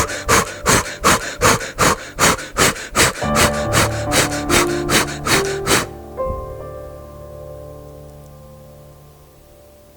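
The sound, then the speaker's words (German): Rapid breathing in and out with the arms raised: many quick, evenly spaced breath bursts for about six seconds, with soft sustained tones under the second half that carry on alone after the breathing stops. “Atme ein paar Mal ganz schnell ein und aus mit den Armen nach oben. Das hört sich so an.”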